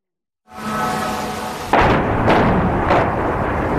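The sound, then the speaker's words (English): Explosions from Russian missile strikes on Kyiv at night: a rising roar builds, then a heavier blast hits, followed by further rumbling booms in a loud, continuous wash of noise. “The moment of impact in yet another round of deadly Russian strikes.”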